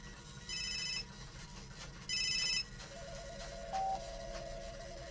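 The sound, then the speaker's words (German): A telephone rings with an incoming call: two short, bright, trilling electronic ring bursts, then a steadier lower tone. All of it is faint, and no one speaks. “Ein Anruf von Mark Zuckerberg.”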